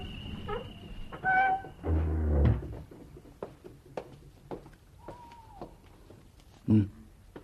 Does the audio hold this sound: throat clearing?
no

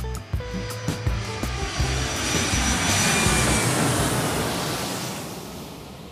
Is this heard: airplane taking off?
yes

